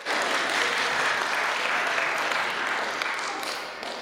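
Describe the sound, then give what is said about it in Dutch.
Audience applause at a gathering honours a congratulated member: dense, steady clapping from many hands that holds at full strength for about four seconds, then eases off slightly at the end. “nou is ook een applausje voor je”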